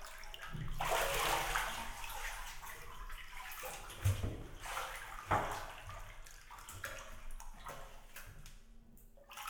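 Shower water running: a steady, hissing rush of spray that holds throughout, broken by a few louder splashes and knocks.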